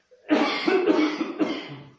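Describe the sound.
A single harsh, drawn-out cough from a tickling throat, loud and rasping, heard on its own for well over a second before it fades.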